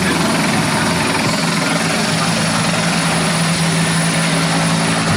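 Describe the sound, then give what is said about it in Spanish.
Aerial firefighting or emergency aircraft, including a helicopter, passing overhead: a loud, steady, throbbing rotor and engine roar that fills the whole clip without letting up. “Es que están pasando, ¿no?, varios medios aéreos y por eso la comunicación a veces se ve entorpecida.”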